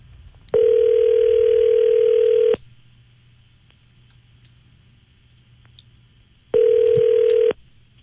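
Telephone line tones for an outgoing call: two long, steady, buzzy tones, the first about two seconds and the second about one second, separated by a quiet gap with faint background hiss.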